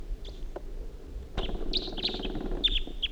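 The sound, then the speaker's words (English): A wild bird calls as it flies away, giving several short, high, piercing chirps. The chirps are spaced irregularly over a low rumbling background, with a sudden rougher burst of noise partway through. “Wild bird's flying away now.”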